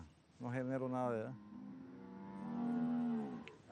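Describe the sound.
Cattle lowing on a ranch in Panama on cleared rainforest land: two drawn-out, deep moos, the first strongly tonal and the second longer and lower, fairly faint overall.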